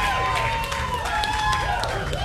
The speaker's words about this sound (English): Big round of applause, ladies and gentlemen.